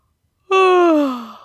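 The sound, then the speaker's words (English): A single drawn-out voiced yawn from a sleepy little bear cub being woken up, performed by a human voice. It starts loud and slides slowly downward in pitch before fading out, with nothing else around it. “Little Bear yawned,”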